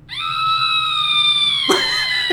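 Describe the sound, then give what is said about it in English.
A soundboard plays a scream effect, a long, loud, sustained high-pitched shriek that holds steady, then breaks off abruptly into a short burst of noise near the end. “Is there a soundboard for this? For blood? Yeah. No. There's a scream.”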